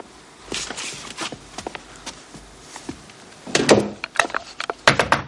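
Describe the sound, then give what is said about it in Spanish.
A bedroom door being shut, heard as scattered wooden clacks and footstep-like taps, then a louder cluster of wooden thumps and a bang toward the end, with no talking. “Entra en su alcoba y cierra la puerta.”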